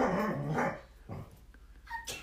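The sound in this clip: A dog barks a few short, sharp times with gaps between, the first barks loudest and the later ones softer.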